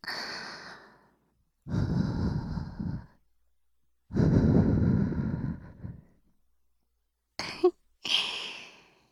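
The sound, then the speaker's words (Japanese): Soft breathy puffs of air blown gently into an ear, several drawn-out blows separated by silent pauses, the last two shorter and sharper. “さっきより、お耳ふうふうされるの、気持ちいいでしょ？”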